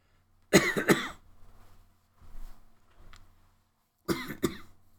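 Coughing from a tickle in the throat: two sharp coughs, a stretch of faint throat sounds, then another loud pair of coughs.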